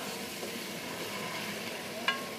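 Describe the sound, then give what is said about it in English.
Food cooking in a pot for a sauce with just a little water added gives a steady, even sizzle and hiss throughout, broken by one light clink near the end. No talk. “I want them to melt. So I add a little bit of water, just a little bit.”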